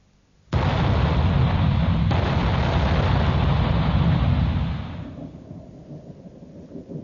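Ship's cannons firing: an abrupt, heavy boom opens into a loud, rumbling roar that holds for about four seconds before fading to a low, dull residue.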